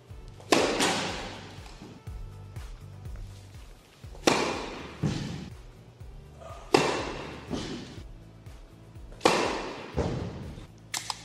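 Racket hitting ball on flat first tennis serves: four sharp, loud impacts spaced a few seconds apart, each with a brief fading tail, plus a few faint clicks between them.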